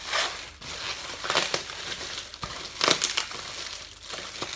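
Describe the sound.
Elegant packaging crinkles and crackles as it is unwrapped, with continuous rustling and crumpling that swells in several louder bursts, heard alone without talk.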